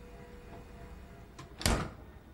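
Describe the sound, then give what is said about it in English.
A fridge stocked with bottles is opened: a faint click comes first, then a short, firm thud near the end, over a quiet, steady low background hum. “he opens the fridge door once more, focusing on the many bottles of grape soda stored within.”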